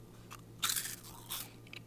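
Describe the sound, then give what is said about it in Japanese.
Crisp crunching comes from biting into light, airy rice crackers fried at high temperature and sprinkled with plum kelp tea. Two short, faint crunch bursts are separated by a brief pause, with small crackles between them and no talking. “サクサクサクと口の中に入れますとスッと溶けていくような歯触りでものすごい柔らかいですね”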